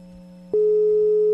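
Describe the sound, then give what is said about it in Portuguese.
A telephone tone sounds while a call is placed: a low, steady tone gives way after half a second to a louder, sustained pure tone that holds to the end, with no talk. “Tá ligando pro Davi?”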